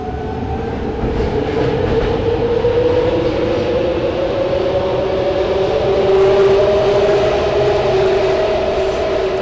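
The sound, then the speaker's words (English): A BART metro train with fixed wheels screeches along the track, giving a sustained high squeal that slowly climbs in pitch over a continuous rolling rumble, with a whirring tone from the train's electronic systems, loud throughout and without voices. “BART has done some things to try to cut down on this banshee scream. The new cars have better sound insulation, so you shouldn't hear that quite as much, but the wheels are still fixed.”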